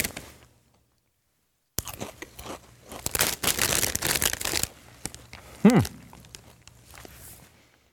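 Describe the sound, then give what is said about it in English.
Crunching of Lay's game day chili-flavored potato chips while eating: after near silence, a dense burst of loud, crisp crunches, then softer intermittent chewing crunches that fade out. “Lay's game day chili flavored. That's it. Just stops there. I guess it's potato chips.”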